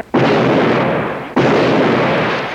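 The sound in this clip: Two loud gunshots from a handgun, each a sudden sharp blast that swells into a long, rumbling roar lasting over a second before the next one cuts in.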